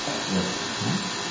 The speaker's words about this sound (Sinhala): තියෙන ෆෑන් එකෙන් සද්ද එනවා.